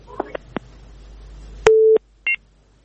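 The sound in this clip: Telephone tones on a dropped call: a few faint clicks, then a loud steady tone lasting about a third of a second, followed by a shorter, higher beep.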